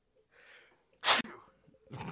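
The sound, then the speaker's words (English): A single loud, abrupt sneeze follows a soft, breathy inhale, then quieter noise trails off after it. “Oh, geez, bless you.”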